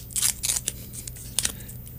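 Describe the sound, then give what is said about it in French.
Crinkly plastic rustling as a bubble gum packet is torn open, with a few sharp crackling bursts and lighter rustles between them. “Et là, on a ouvert le paquet.”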